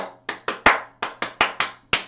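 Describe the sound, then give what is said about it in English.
A church audience claps together during a praise song, giving eight sharp, loud claps in a quick, slightly uneven rhythm with short pauses between groups. “Now praise him with your hands, let's clap now.”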